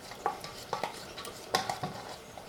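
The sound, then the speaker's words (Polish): Natural yogurt is spooned into a small bowl, with a few soft, quiet clinks and scrapes of the spoon against the dish at an uneven rhythm. “Jogurt przekładam sobie do małej miseczki.”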